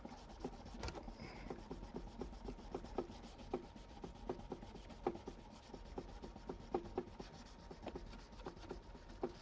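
Fine-grit, felt-backed abrasive rubbed across a surface in a final sanding pass: many quick, even back-and-forth strokes with a soft, papery scratch, faint and steady throughout.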